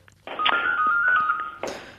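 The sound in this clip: A mobile phone ringtone: one sustained electronic tone lasting just over a second, ending with a short brighter burst, sounding alone without talk.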